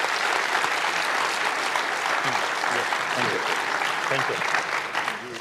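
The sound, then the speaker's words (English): Sustained applause from an audience at an award presentation, dense steady clapping at an even loudness throughout, with faint voices mixed in and no other sound rising above it. “Thank you very much, and applause.”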